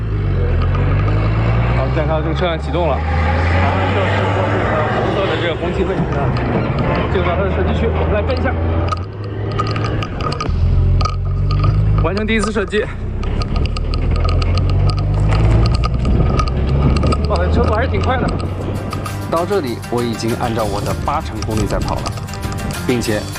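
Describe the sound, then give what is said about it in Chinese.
Low, droning engine rumble of a military vehicle setting off and driving onto a firing range, steady throughout as voices talk over it. “看到这个车辆启动了，然后这是红色的这个红旗位置，进入到它的射击区”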